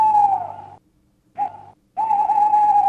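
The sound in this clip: An owl calls at night with three steady, whistle-like hoots: a long one, a short one after a pause, then another long one. They are moderately loud, with near silence between them.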